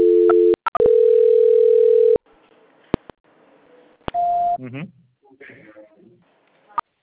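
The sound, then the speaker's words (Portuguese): Telephone line tones play while a call is transferred: a brief double beep, then a long steady low tone of about a second and a half, a few clicks, and a short higher beep, followed by faint talking. “o senhor aguarda só um instante em linha, que eu já estou transferindo a sua ligação”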